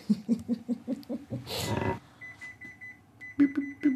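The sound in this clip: An oven timer signals that biscuits have finished baking with rapid trains of high-pitched electronic beeps in two runs separated by a short gap, following earlier voices.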